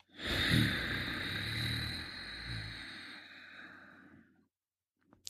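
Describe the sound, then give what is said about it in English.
A long, hissing breath drawn through the nose with the back of the throat gently contracted, steady and sustained for about four seconds before fading, followed by a couple of faint, brief sounds. “So we're going to inhale through the nose while gently contracting the back of our throat. And exhale slowly through the nose while keeping that throat contracted.”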